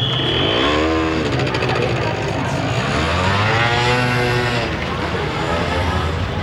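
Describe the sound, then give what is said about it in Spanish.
A motorcycle pulls away and rides off: a loud, continuous engine drone whose pitch climbs and falls in repeated sweeps as it revs. “Min Dao se aleja en su moto”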